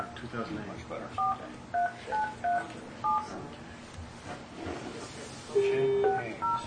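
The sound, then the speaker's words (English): Touch-tone dialing of a telephone number: a run of short dual-tone beeps in quick, uneven succession, then a longer steady tone and a few more beeps, with people talking throughout. “And I'm going to be dialing that number.”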